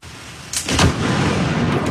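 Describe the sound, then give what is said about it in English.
A lightning strike hits a tree in a park during a rare thunderstorm over North Vancouver, with a sharp crack about half a second in, followed by a loud, rolling thunder boom that stays heavy to the end. “One flash, one boom, and one very startled camera operator. The strike, enough to spark flames at North Vancouver's Princess Park.”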